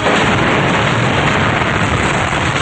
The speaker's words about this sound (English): the whole tower and helicopter explode into flames